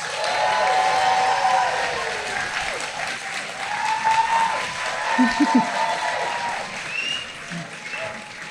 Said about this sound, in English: So please put your hands together and give a warm Happiness Lab Live welcome to Jason Mitchell.